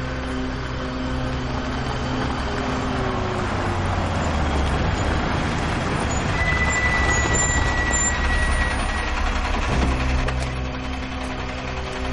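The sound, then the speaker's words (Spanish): Bus engine drone as the bus drives along a dark road at night, a steady low rumble with road noise that shifts near the end as the bus comes to a stop. “De noche un autobús circula por una oscura carretera hasta detenerse.”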